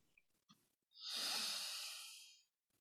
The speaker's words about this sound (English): Take a deep breath.